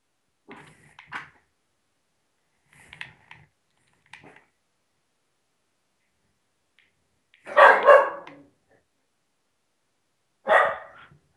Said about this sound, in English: What are you barking at, dog? There's no one here.